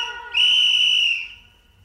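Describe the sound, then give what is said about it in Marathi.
One shrill whistle blast sounds in a Marathi song, a loud, high, steady tone held for about a second before it fades away. “मधी मधी वाजविन शिट्टी”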